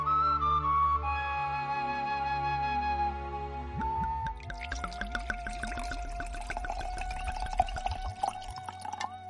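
Wine pours with a steady gurgling flow and faint tonal ringing, breaking into bubbly splashing glugs in the second half, fairly quiet throughout.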